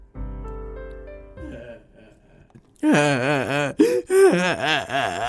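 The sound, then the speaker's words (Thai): Exaggerated, loud wailing cries with swooping pitch come from Zhu Bajie (Pigsy) in a dramatised Journey to the West story. They follow a short stretch of instrumental music. “ในขณะที่มาถึง โป้ยกายก็ยังร้องไห้ไม่หยุด”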